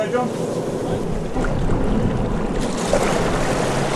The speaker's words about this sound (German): Wir chartern ein Boot und fahren bei schönstem Wetter zum Fischen hinaus in den spiegelglatten Hauraki-Golf.